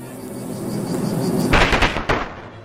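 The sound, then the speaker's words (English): A video game sound effect for the insect-type special attack move Plague, used by the creature Symphonid: a low, quiet hum gives way to a loud burst of crackling, explosive hits, with one sharp final crack before it cuts off. “choose a move, plague, insect, special, Symphonid used plague.”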